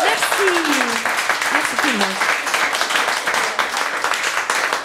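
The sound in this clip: Audience applause for a live piano performance: dense, steady clapping that holds throughout at even loudness, with a voice speaking over it.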